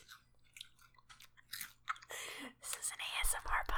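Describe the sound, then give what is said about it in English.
Biting and chewing a Cheeto, a series of soft, crisp crunches and mouth sounds, quiet overall with faint breathy whispering. “I'm going to take a bite of this Cheeto because I'm fucking drunk.”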